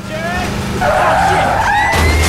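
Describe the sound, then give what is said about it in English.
A car races through a narrow alleyway and a blind junction: a loud, continuous engine roar with a whining tone that climbs as it speeds up, and a brief rough scrape near the end. “Jarrad puts his foot down. Now he races along a narrow alleyway. He speeds through a blind junction.”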